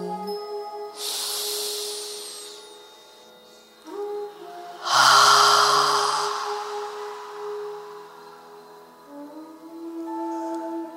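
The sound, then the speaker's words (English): A deep breath in during a guided meditation: two long, airy, hissing breaths, each lasting a couple of seconds, over a soft steady drone. “Breathe in”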